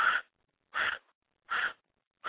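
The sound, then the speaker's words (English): Short, forceful breaths drawn in through the nose as part of a breathing exercise, heard as four evenly spaced, breathy bursts, each under half a second, with silence between them. “Now, that's the inhale.”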